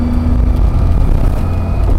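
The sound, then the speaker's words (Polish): An old Russian off-road Lada car drives along, giving steady engine and road noise: a constant low rumble with a droning hum and no clear changes in revs. “Jedziemy. Łada. Yeah. Najbardziej terenowe ruskie auto.”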